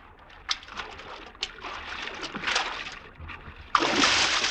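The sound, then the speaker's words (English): Water splashes as Caesar swims in a dramatized scene: irregular slaps and sloshes over a steady watery wash, giving way to a loud, sustained rush of splashing at the end. “Not so godlike our Caesar when he swims.”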